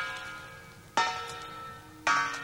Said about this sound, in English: Now I've rung the front doorbell.